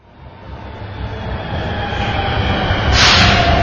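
A Shanghai metro train arrives at Shanghai Library station, its rumbling roar growing steadily louder, with a brief high wheel squeal near the end.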